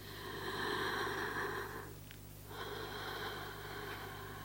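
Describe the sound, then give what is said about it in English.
Slow breathing imitating a battery-operated whole-body teddy bear, quiet and airy, two drawn-out breath cycles with a brief lull between them. “I don't know if you can hear that through the mic, a battery-operated whole-body teddy breathing.”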